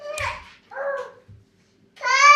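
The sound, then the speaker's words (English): Dogs playing in a house give short whines and yips in three brief bursts separated by pauses, with a faint low thud in between. “oh my God, there's so much noise in this house. Why are you... What are you doing to the dog? The dogs are playing...”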